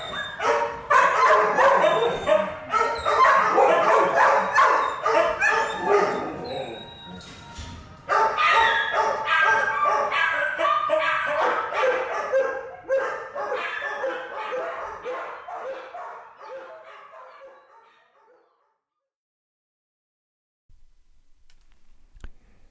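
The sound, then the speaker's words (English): Many dogs barking, yelping and whimpering at once in a loud, chaotic mass of mixed pitches, with a brief break partway through before the din resumes, gradually fades and drops to near silence, followed by a faint trailing sound. “with their chaotic range of pitches, timbres, dire emotions, and sheer, shattering volume, what can I say, the doggies win. Their voices, so loud, so distraught, and in such numbers, coerce me to listen.”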